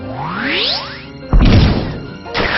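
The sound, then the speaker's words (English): Power Punch attack hitting in a video game battle: a synthetic sweep rising in pitch, then two heavy crashing impacts, with no voices. “Tenshaino used Power Punch.”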